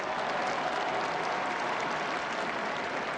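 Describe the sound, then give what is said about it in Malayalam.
Crowds in St. Peter's Square applaud as the Pope appears at the palace window. The clapping is dense and steady, a continuous wash of hands. “പാപ്പ അരമനയുടെ മുകളിലത്തെ നിലയിലുള്ള ജാലകത്തിങ്കൽ പ്രത്യക്ഷനായപ്പോൾ ജനങ്ങൾ തങ്ങളുടെ ആനന്ദം കരഘോഷങ്ങളാലും ആരവങ്ങളാലും അറിയിച്ചു.”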